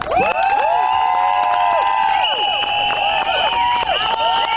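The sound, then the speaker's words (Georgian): Women protesting outside parliament blow many shrill whistles over loud shouting. The piercing tones overlap and slide in pitch without pause. “აი ასეთი შეძახილების და სასტუენების ხმის ფონზე მოითხოვდნენ პარლამენტის წინ შეკრებილი ქალების საკუთარი უფლებების დაცვას.”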